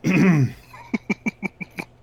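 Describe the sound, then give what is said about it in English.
A person clearing their throat: a voiced, rasping burst followed by six short, evenly spaced pulses that come out faint and could almost pass for laughter. “I was just clearing my throat. It was perfect timing.”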